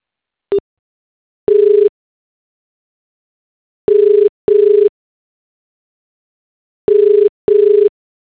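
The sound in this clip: Telephone busy tone: a steady single-pitched beep repeating in five short bursts, some spaced apart and some in close pairs, after one brief opening blip, with silence between and no talk.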